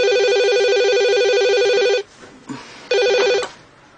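A telephone rings as a woman calls her husband. A bright electronic trilling ring lasts about two seconds, a brief gap with faint noise follows, and then the ring starts again for a short burst.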